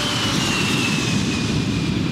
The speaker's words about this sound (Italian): Il velivolo con i Busby Babies decolla da Belgrado alle 10 del mattino.